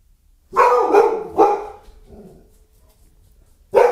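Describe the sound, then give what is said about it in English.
A female dog barks at something outside with a few loud, sharp barks in quick succession. A fainter yelp follows, then a pause, then one more loud bark. “Give me a second. That's my dog. Apparently there's something outside that got her attention.”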